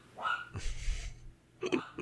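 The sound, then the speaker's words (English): A dog barking at a mockingbird that is taunting it: a few rough, uneven barks and yelps in short bursts, with a brief lull before the last ones. “The bird is mocking the dog, and the dog is, of course, taking the bait.”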